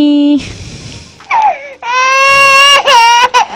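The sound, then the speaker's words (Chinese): A child cries loudly in wailing bursts broken by short gaps and sharp catches of breath. The pitch wavers and shifts between each outburst. “孩子，孩，不哭，不哭，不哭啊！没事儿，没事儿。”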